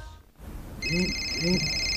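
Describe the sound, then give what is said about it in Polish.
A telephone ringing with a call from a medical clinic, a steady high electronic ringing tone that starts after a short pause and continues, with two brief vocal sounds under it. “O, telefon z przychodni.”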